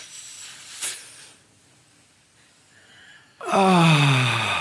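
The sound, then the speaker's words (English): A voice demonstrates a smoker's deep breath: an airy inhale and a short pause, then a loud, voiced sighing exhale whose pitch falls as it trails off. “Watch the way smokers do this. Watch them do this. They go.”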